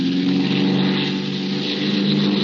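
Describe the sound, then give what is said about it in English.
An airplane engine revs at an airfield, producing a loud, steady, buzzing drone with a throbbing propeller tone and no break. “Jazz the motor”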